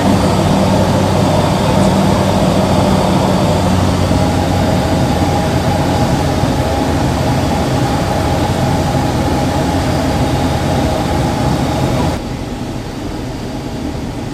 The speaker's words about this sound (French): allez, on retourne sur l'aérodrome et on va enregistrer l'atterrissage.